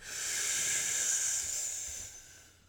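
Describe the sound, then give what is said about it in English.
Slow, controlled, deep breathing: a single long, airy hiss of breath swells and then slowly tapers off over about two and a half seconds, heard alone. “But another method is slow, controlled, deep breathing. Like,”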